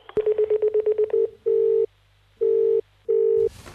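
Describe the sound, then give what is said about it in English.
Telephone keypad tones as a number is dialled to reach an extras agency: a quick, even run of many short beeps, then three longer, steady tones separated by short gaps, ending in a burst of noise. “For Ardmore Extra Agency, dial 8.”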